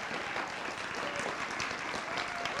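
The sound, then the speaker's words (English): An audience applauds with steady, even clapping that holds at a moderate level throughout. “Hey, guys, let's give these all a hand.”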